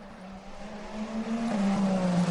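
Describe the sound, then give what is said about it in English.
Race car engines whine on a circuit during a race as the cars climb a hill. The steady, buzzing tone edges higher in pitch and grows gradually louder, with no voices. “Lap after lap, Antonio Giovinazzi has been in the wheel tracks of Kamui Kobayashi.”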